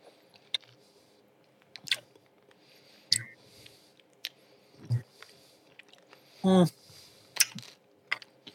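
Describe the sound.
Sour watermelon and black cherry chips being chewed: irregular crunchy bites and moist chomps separated by quiet gaps. A brief hummed voice sound comes partway through.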